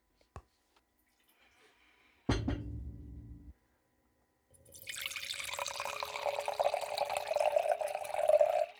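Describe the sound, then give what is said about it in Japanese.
A drink poured from a bottle: a brief click and a short low burst, then after a pause a steady splashing, gurgling pour of liquid lasting about four seconds. “じゃあ今日はね、一本ちょっと用意していただいてるんでね、 はい、 早速注いでいただきますか。”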